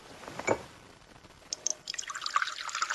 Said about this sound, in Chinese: 刘幽求将李隆基让到座上，然后从一旁取过滚烫的沸水，向茶具内冲水泡茶。